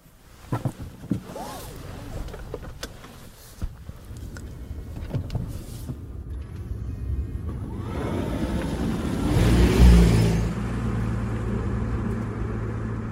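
A hybrid car with a 2-litre four-cylinder petrol engine and an electric motor drives off: a few clicks and knocks come first, then a rumbling road and engine noise that builds to a peak before settling, with no talking.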